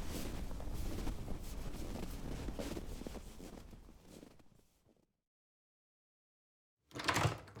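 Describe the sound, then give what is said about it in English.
Cold wind blowing outdoors, a gusty rumbling buffet that swells and then fades away into silence, before a short, sharp gust returns near the end. “Holy God, it is so good to get in out of that wind.”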